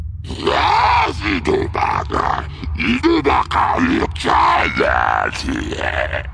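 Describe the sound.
A hut lets out an angry, monstrous scream: a run of guttural roaring and growling bursts over a low rumble, lasting several seconds.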